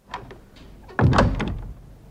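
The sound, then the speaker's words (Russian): An office door slams shut with one loud, heavy bang and a rumbling decay. A fainter knock sounds shortly before it. “Завгар выскочил из кабинета, хлопнул дверью.”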